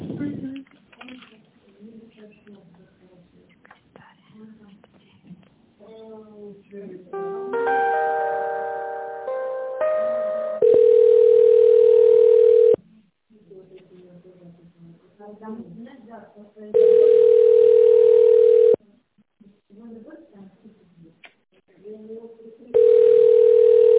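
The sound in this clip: Ringback tones sound on a telephone line while a call is being transferred to a secretary: long, steady, mid-pitched beeps of about two seconds each repeat three times. A short chiming melody comes before them, and voices talk between the tones.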